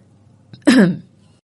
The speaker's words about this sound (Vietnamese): Tôi hắng giọng vài cái rồi bắt đầu dằn dài.